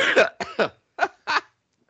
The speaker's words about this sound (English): you make me cough.